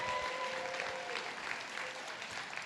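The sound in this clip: A church audience applauds and cheers during a service, making a faint, steady wash of clapping with scattered crowd voices.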